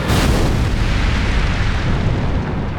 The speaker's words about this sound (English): A fireball shot down from the heavens, a blaze of white-hot flame that Lilith hoped wasn't going to engulf her and Eve